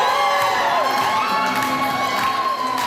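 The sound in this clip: A crowd cheers and shouts at an African culture festival in Winnipeg as a dozen grandmothers in traditional handmade clothing walk a fashion runway. The loud cheering is continuous, with high-pitched whoops and shouts throughout.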